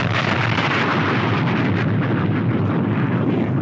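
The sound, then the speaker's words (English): A bomb drop sound effect: a loud, continuous, rumbling roar like a big explosion, sustained evenly without a break. “I'm gonna make sure you get this quality bomb drop.”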